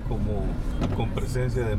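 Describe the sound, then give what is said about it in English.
A 10-year-old pickup truck drives across town in El Progreso, Honduras. A low, steady engine rumble runs under a man's voice as he talks throughout. “is at the wheel of his 10-year-old pickup truck driving across town.”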